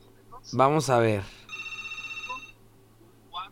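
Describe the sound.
An incoming call sets a telephone ringing: a single electronic trilling ring of rapid, even pulses lasting about a second, heard just after a short stretch of talk.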